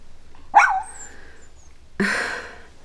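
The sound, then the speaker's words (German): Two barks from a small light-brown dog. A sharp, bright yap comes first, then a second, noisier bark after a pause of more than a second, with quiet background between them. “sitzt ein putziger hellbrauner Hund auf den Hinterbeinen und hält die Vorderpfoten vor der Brust gekreuzt. Tu va bien? Der Hund von François.”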